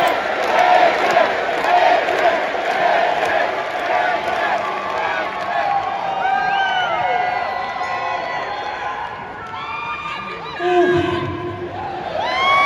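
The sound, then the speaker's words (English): A large arena crowd of fans roars and cheers as a retired player's number is unveiled in the rafters. The dense, loud wall of voices holds steady throughout, with shouts rising out of it and a brief swell near the end. “Let's watch the fans welcome him and his number be unveiled in the rafters.”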